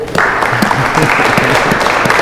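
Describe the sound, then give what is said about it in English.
Audience members at a church and Christian preschool gathering clap together in a steady, moderately loud wash that carries on for about two seconds after a brief quiet start. “That's kind of a sleepy clap, but that's all right.”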